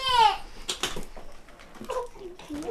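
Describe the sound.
A baby cries, opening with a short, loud wail that falls in pitch, followed by quieter fussy, babbling vocal sounds.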